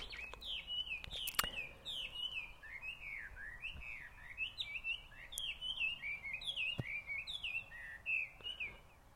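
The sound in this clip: Bird calls in a Hawaiian rainforest: a long series of bright, high chirping whistles repeating in a steady rhythm, fairly faint over a low background hiss, with a few sharp clicks near the start and no voices.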